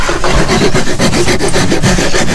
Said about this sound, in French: La lime, la râpe, ouais. Tu dégrossis là, là, et après à la ponceuse, enfin à main